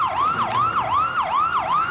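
A police car siren arriving: a rapid electronic yelp that sweeps up and down in pitch over and over, loud and steady throughout.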